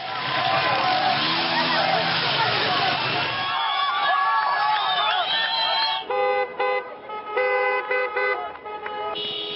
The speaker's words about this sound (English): From Nigeria to Syria and Pakistan, people are reacting to their energy costs soaring. Here's the sound of some of those protests worldwide.